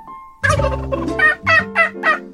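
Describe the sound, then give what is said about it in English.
Turkeys gobbling, the two birds pardoned at the White House for Thanksgiving, giving a loud run of rapid, warbling gobble bursts, one after another, with no talk over them. “What's that? Oh, turkeys.”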